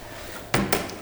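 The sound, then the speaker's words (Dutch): The lid of an old, preserved water well is opened with two short knocks or scrapes, the second slightly weaker, over a quiet background. “En daarom waren hier allerlei putten langs het water. En deze is bewaard gebleven. Denk je dat hij nog open kan? Laten we eens proberen.”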